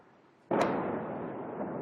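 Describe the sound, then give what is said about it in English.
An explosion from a bombardment in the southern suburbs of Beirut hits as one sudden, sharp blast. A dense, steady rumbling roar follows and continues to the end. “In southern Beirut today, an Israeli bombardment.”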